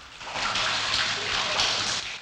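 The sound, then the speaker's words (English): Water spouts from a fountain at the entrance to an open underground chamber near sea cliffs, giving a loud, continuous splashing hiss with small surges, steady from start to end. “A fountain spouts water at the entrance to an open underground chamber.”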